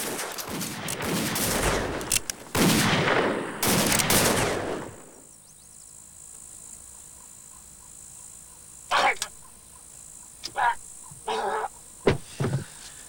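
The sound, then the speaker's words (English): Gunfire into the wooden walls of a small shed-like outdoor toilet: a heavy, rapid volley of loud cracks for several seconds, then a quiet gap broken by a few scattered sharp bursts. “Buckshot fires and he has to duck for cover. Screw that! The regulators fire into the wooden walls of the small shed-like toilet.”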